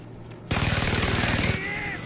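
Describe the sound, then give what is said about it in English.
A big mounted gun fires in a video game: after a quieter start comes a single loud burst of rapid automatic shots lasting about a second, then a softer tail with a faint high whine. “Now we got the big gun, and then you can use it to take out the other two big guns that are up there.”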